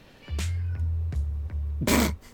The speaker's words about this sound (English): It sounds like you just hit your cat with the dice.